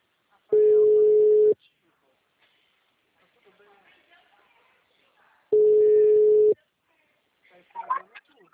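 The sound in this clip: Ringback tone on an outgoing phone call placed from a bank: two steady, even, mid-pitched tones, each about a second long and roughly four seconds apart, with soft talk between them and after.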